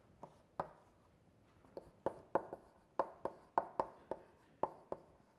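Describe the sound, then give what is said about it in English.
Writing strokes on a board as a chemistry lecturer draws a line and molecular structures: many sharp, faint clicks and taps in an irregular rhythm, with no talk. “I'm going to put a line between the two so that you can see the difference”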